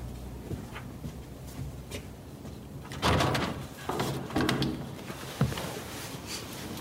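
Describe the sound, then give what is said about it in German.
A window is opened: a rough sliding scrape with a few bumps and knocks, swelling louder in the middle, over a low steady background. “Fenster aufmachen.”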